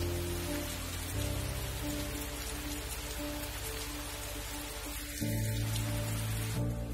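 Steady rain falls on a cold day, a continuous soft hiss of drops striking a surface, faint and even throughout.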